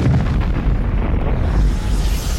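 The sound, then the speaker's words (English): A roaring explosion of the planet Krypton: a loud, dense, rumbling blast that fills the whole moment without a clear start or end. “He will be the last survivor of Krypton, and as his little spaceship goes off into the galaxy, we see Krypton explode.”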